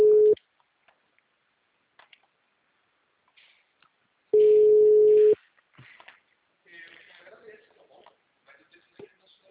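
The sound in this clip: An automated answering system gives two plain, steady mid-pitched telephone line tones, a short one and then a longer one about a second long, separated by quiet. Faint voices follow.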